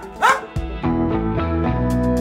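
A dog barks in a few sharp, loud bursts, starting with a high yelping bark and followed by shorter, lower yips and woofs in quick succession.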